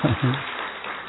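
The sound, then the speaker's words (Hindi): An audience claps for a woman host at a retreat. A dense, steady patter of many hands fills the short clip, with a voice heard briefly at the start. “दीदी के लिए तालियां बजाओ जरा एक बार अच्छी तरह से, जोर से बजाओ जोर से बजाओ।”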